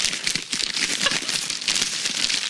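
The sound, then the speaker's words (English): Brown paper bags crinkling around 40-ounce bottles, several handled at the same moment. The result is a dense, steady run of many quick, crisp crackles and rustles with no pause. “That sound is the brown paper bags around our 40s.”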